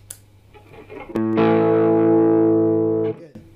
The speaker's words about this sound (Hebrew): אבל אני כן רוצה להתחיל לקבל קצת יותר דינמיות בסאונד. אני מדליק פדל.